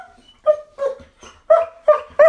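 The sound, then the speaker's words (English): A dog indoors, having brought a log inside, gives a run of short, high, whiny yips and barks in an uneven rhythm, about five loud cries with a softer one between them and no talk. “And you are a beautiful dog when you're running outside, but when you bring your log in here, not so much.”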